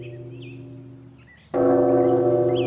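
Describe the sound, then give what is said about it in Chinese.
A large temple bell in a monastery is struck once midway, giving a sudden rich, sustained ringing hum over the fading drone of an earlier stroke, while birds chirp faintly. “黎明时我一听到钟声精神就振奋起来，打坐念经特别专心呢”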